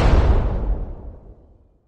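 A bomb explosion sound effect bursts at full strength with a deep, heavy boom, then rumbles and fades steadily to silence within about two seconds.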